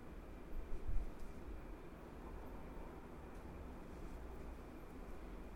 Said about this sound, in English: Airplane. Oh, I guess I could look at that flight tracker app. Yeah. See where that airplane is.